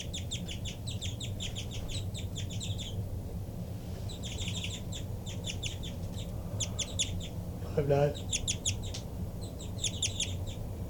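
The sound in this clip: A bird gives rapid flight calls: about four bursts of quick, high, repeated chirps separated by short pauses over a low, steady background rumble. A brief lower call sounds in the middle.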